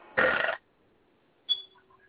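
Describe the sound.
A single short, loud burp erupts for about half a second, followed after a pause by a brief faint high tone and a few soft chirps.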